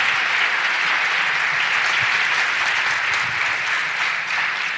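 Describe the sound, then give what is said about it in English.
Live audience applause at a Messiah College Educator's Day taping: dense, steady clapping from many hands that holds at an even level from start to finish, with no talking over it. “Let's, again, live studio audience, let's give them a big hand.”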